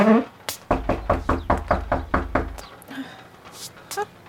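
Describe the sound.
Knocking on a door, a rapid, even series of firm thumping knocks, with brief voices speaking just before and after.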